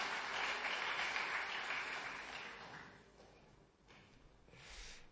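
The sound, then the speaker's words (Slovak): Church audience applauding pupils who finished the school year. A dense, soft patter of clapping fades away after about three seconds. “Daj mi potles, aleluja.”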